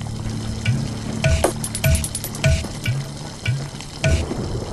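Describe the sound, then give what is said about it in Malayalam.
Dry red chillies and coriander seeds roasting in coconut oil until darkened, giving a steady crackling sizzle broken by many rhythmic scraping stirs of a utensil against the pan. “പറങ്കിയും കൊത്തമ്പാരിയും വെളിച്ചെണ്ണ നനച്ച് കരിയെ വറുത്തു”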